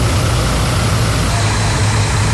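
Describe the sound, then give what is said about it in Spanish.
Cargo truck engines run at about 4 a.m. as trucks stranded overnight on a highway begin to move, a loud, continuous low rumble and drone that stays steady with no distinct separate starts. “Cerca de las 4 de la mañana, los motores empiezan a encenderse.”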